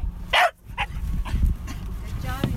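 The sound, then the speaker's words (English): A detection dog trained to sniff out orca scat gives a few short, high yips and barks. The first is the loudest, and a low, continuous background rumble runs beneath them. “That's the sound of Eba the whale dog.”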